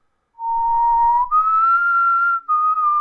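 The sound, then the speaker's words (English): A person whistles a creepy villain's motif from a film in three clear, sustained notes. A low held tone jumps to a higher long one, then drops slightly for the final note, with short breaths between them. “He keeps whistling”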